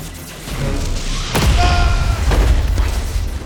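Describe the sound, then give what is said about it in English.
A module explodes amid flames and smoky haze: a single deep boom strikes midway, then a heavy low rumble with crackling debris carries on to the end. “Another module had exploded. It had blown him several feet away, but he was all right.”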